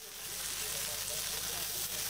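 Khanom krok sizzles quietly as the rice-flour, salt and coconut-milk batter cooks in a pan over a moderate fire in a wood-fired stove, giving a soft, continuous hiss without pauses.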